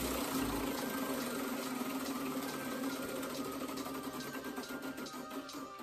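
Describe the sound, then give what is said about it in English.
A prize wheel being spun, giving a rapid, even stream of ticking clicks that blend into a continuous mechanical rattle, loud and steady throughout with no talking. “Let's do another spin of the wheel, man. Another spin.”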